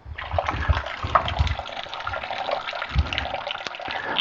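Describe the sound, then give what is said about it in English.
Tap water runs over a spoon in a kitchen as it is wetted during cooking. The stream gives a steady, splashy rush at a fairly even level, with a few soft low knocks. “let me get my spoon wet here.”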